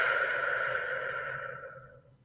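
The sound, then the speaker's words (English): A deep breath slowly exhaled during a guided relaxation exercise: one long, soft, breathy whoosh that starts fairly strong and gradually fades away over about two seconds, with no talking. “Take a deep breath again. And exhale.”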